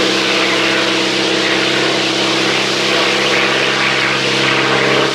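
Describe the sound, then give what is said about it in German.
A propeller airplane drones steadily in flight, a loud, continuous engine roar with a low humming tone that holds an even level throughout, with no voices. “Jetzt lasst er den Quacks ganz allein fliegen.”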